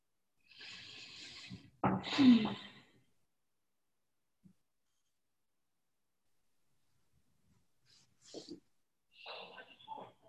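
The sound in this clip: A couple of deep breaths taken at the close of a guided settling-in: a soft airy breath followed by a louder, rougher one, then a long stretch of near silence and a few faint, brief sounds.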